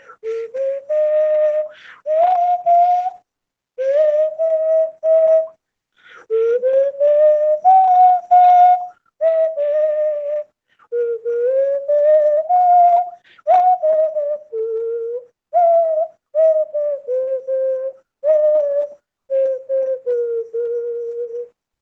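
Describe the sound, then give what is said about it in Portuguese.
A simple, inexpensive whistle of the kind sold at any market plays a lively melody in many short phrases. Its clear, fairly loud tone slides and wavers in pitch, with no talking over it. “esse apito tão simples, né, que você pode comprar em qualquer mercado também, ele possibilita que a gente possa tirar som.”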